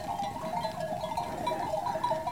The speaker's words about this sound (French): son chien est en train de reconduire le troupeau